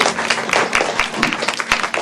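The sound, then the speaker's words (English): Audience applause: a dense, even patter of many hands clapping at moderate level for about two seconds, with no voices standing out. “Okay, let's give a round of applause.”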